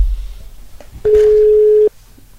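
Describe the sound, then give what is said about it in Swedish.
A telephone ringback tone sounds while calling someone: one steady, mid-pitched tone burst lasting just under a second, louder than the faint low background noise before and after it. “Nu provar vi ringa till Sam.”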